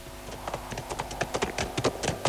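Horse hooves clip-clop along a forest path in a steady, even rhythm of many crisp hoofbeats, with no voices over them.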